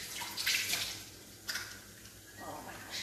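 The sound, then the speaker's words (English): Running tap water as hands are washed while baking, a faint, steady hiss broken by a few brief splashy surges. “I need to wash my hands because I'm touching my food.”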